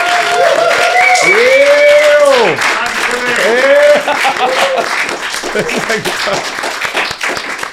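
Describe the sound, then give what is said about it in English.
A live audience applauds loudly at the close of an evening conversation event, dense clapping running throughout, with whoops and cheering voices rising and falling over it before the noise gradually thins. “I want to thank the live audience one time as well. It's been lots of fun. Give it up for yourselves one time.”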